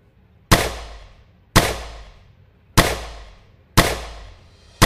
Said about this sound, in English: you see like a spark go through from their hand into the barrel, and then a gunshot rings out, followed by six more.